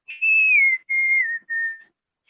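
A person whistles three clear notes, imitating the several-note fall song of a bird with dark black crown stripes. The first is long and high, and the next two are shorter and slightly lower, gliding downward, with no talk.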